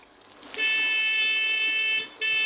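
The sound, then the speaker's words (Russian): A car horn honks in two steady, loud, high blasts: the first holds for about a second and a half, and after a brief gap the second begins and runs to the end. “Да что он гудит окаянный? Глухие ему, что ли, здесь?”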